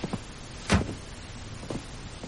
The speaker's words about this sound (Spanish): El vigilante de la urbanización aparca ante la casa.